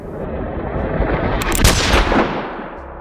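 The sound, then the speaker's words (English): Gunshots are fired inside a steakhouse, heard as loud, dense, rumbling blasts that fill about three seconds. A sharper, brighter burst stands out near the middle, and the din eases slightly toward the end. “I hadn't finished the sentence when the first bullet hit. I was on the floor when the second skimmed my ear.”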